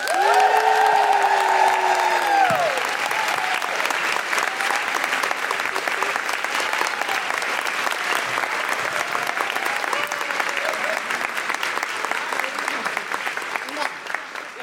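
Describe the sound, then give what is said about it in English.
A live show audience applauds loudly and steadily, with cheering and whoops near the start, and the clapping carries on for several seconds. “Please put your hands together and make wonderful Guilty Feminist woo-hooing noises for Amy Lamé and Alicia Wittmeyer.”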